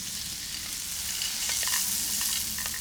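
Arborio rice toasts in a hot pan while being stirred, giving a continuous crackling sizzle with a few soft scraping stirs breaking through.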